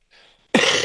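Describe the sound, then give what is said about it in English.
A single loud, sharp cough bursts out after a faint breathy lead-in and cuts off abruptly. “could we get one final cough”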